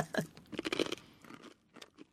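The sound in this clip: Crunchy snack being chewed, with a few irregular crisp crunches in quick succession, fairly quiet and with no talk.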